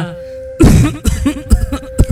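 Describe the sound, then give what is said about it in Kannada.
A deep, persistent smoker's cough from a man who smokes beedis comes as several loud, hacking bursts. A heavy first cough is followed by a run of shorter coughs at uneven intervals. “ಏನಿ ಆಳದ ಕೆಮ್ಮು ನಿಲ್ತಾನೆ ಇಲ್ವಲ್ಲಪ್ಪ?”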